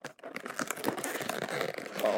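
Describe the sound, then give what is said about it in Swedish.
Plastic packaging crinkles and rustles as a nose hair trimmer, sold with AA batteries included, is opened. The crackling is steady and fairly quiet throughout, with a few sharper crinkles and tears. “Du vill se mig öppna nästrimmen? Öppna nästrimmen nu, får vi se om det funkar då.”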